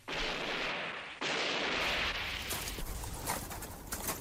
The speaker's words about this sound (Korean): 먼 곳에서 이따금 한두 방의 총소리가 울려와 사람들의 공포를 자아내었다.